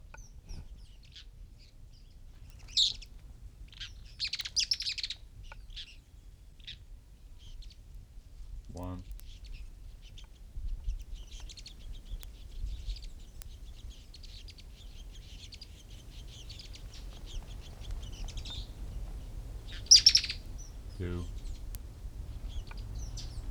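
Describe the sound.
Song of a mouse-coloured tyrannulet (Phaeomyias murina), one of two adults feeding young: short, high, thin chirpy phrases in a few separate bursts, with softer chattering notes between them, over a low, steady background rumble.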